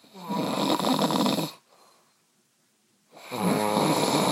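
A man snores loudly at night. Two long, harsh, buzzing snores are separated by a quiet pause, and the second snore is cut off at the end.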